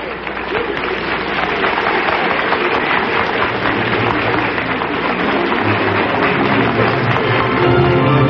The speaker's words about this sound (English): Miss Luddy and Mr. Soule are taking bows. Now they're joined by Verna Felton, Hi Averback, and Paul Dubov. Now the audience is giving them a great ovation.